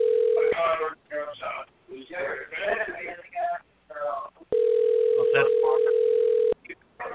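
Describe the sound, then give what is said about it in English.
A phone ringback tone on an outgoing call that goes unanswered: a short burst of steady low tone at the start, then one long steady tone of about two seconds. People talk in the gaps between the tones. “It says dialing, but there we go. As, believe it or not, that's not a sound. It's actually, we're actually trying to call.”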